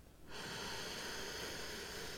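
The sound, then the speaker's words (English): A deep breath drawn in through the nose: a soft, breathy hiss starts abruptly and holds steady and faint for the rest of the moment. “Whenever you are ready, take that deep breath in.”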